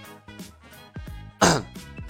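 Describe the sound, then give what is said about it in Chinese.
A man gives a light cough to clear his throat: one brief, rough burst amid soft, faint voiced sounds, with no clear speech. “他轻咳了一声。”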